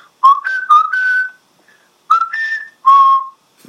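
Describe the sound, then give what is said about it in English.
Someone whistles a theme song as clear, bright notes in two short phrases separated by a brief pause. The tune is loud and heard alone. “Whistling the theme.”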